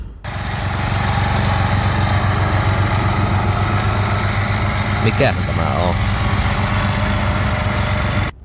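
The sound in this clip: Lawn mower engine droning steadily while mowing grass in summer, a loud, even motor hum running almost the whole clip, with a brief spoken question partway through.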